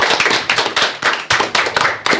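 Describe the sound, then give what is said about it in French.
Tenth-grade students applaud themselves at the close of a school radio project, many brisk, loud claps in a fast, steady patter. “bravo, vous pouvez vous applaudir.”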